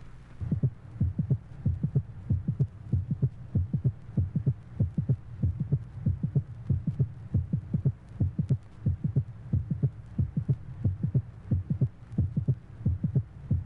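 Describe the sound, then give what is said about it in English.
A normal heart beats with a systolic triple rhythm at the mitral area, its second sound the loudest. Many low, muffled thumps repeat in a steady, regular pattern throughout. “Normal systolic triple rhythm, mitral area. The loudest sound being the second heart sound.”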